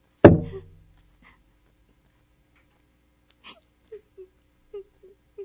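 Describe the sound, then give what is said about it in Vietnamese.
Someone crying, with a handful of soft, short, broken sobbing catches. They follow a single heavy thud and a long stretch of silence. “Ủa, tiếng ai khóc đó? Ai khóc đó? Ai khóc đó? Ai?”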